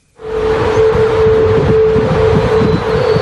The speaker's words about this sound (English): Can you hear that? That's not just your radio. It's not just static. It's the Golden Gate Bridge. That's the sound of the Golden Gate Bridge over the weekend.